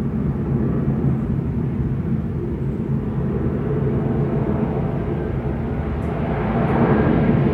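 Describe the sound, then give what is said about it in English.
A Cessna plane flying overhead in Yogyakarta, Indonesia, its steady low engine drone holding level and swelling slightly toward the end, with no voices. “Plane. That's a plane. Yeah, it's a plane. It is specifically a plane flying overhead in Yogyakarta, Indonesia. In 2014. I believe that's a Cessna”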